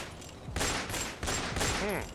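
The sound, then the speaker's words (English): Police officers open fire on a man in a comic sketch: two loud, sustained bursts of rapid gunshots, each volley rattling for a moment before falling back to a lower noise. “Oh God, they're shooting me. My God, they're pumping me full of lead.”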